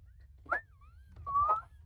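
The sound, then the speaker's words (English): A person gives a short, faint whistle in two phrases: the pitch slides down, then wavers and climbs again. “Are you trying to do the Mr. Fox whistle? Give a little whistle.”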